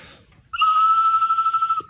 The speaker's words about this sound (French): Ils sont tout différents, les sifflets. J'aime bien celui-là, moi. Puis quand vous sifflez, l'oiseau, il bouge.